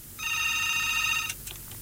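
A telephone rings with an incoming call: a single steady, buzzy, high-pitched electronic tone lasting about a second over a low background hum, followed by a few faint clicks.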